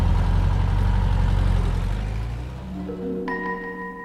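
Car engine running with a steady, deep low rumble that holds throughout, loud and alone with no voices.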